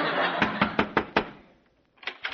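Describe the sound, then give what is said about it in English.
Knocking on a door: a run of five sharp, evenly spaced raps, a short pause, then a few more knocks. “Go on, ring the doorbell again. I better knock this time.”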